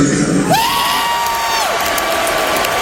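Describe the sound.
A concert audience cheers for Iron Maiden at a show on the Canadian side of Lake Ontario. The crowd roars loudly and continuously, and a high whoop rises out of the din early on.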